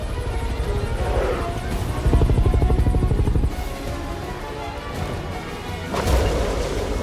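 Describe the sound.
A helicopter spinning out of control before it explodes: a loud, steady rotor thrum with rhythmic chopping, broken by a few heavy crashing bursts.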